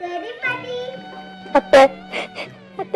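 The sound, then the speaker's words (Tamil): A woman cries with a wavering, high-pitched whimpering voice, broken by a few sharp sobbing gasps over a low steady hum. “ஏமா அழற”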